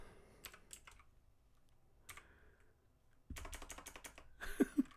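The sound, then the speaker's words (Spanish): Typing on a computer keyboard said to have stopped working, heard as a few short bursts of quick plastic key clicks with gaps between them and a denser, louder run of clicks toward the end. “Oh my god, este teclado ya no sirve.”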